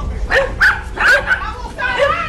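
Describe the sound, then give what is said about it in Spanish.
Dogs barking during a police arrest at a small house, a run of several sharp barks and higher yips in quick succession, loud and busy throughout. “hasta los perros están ladrando”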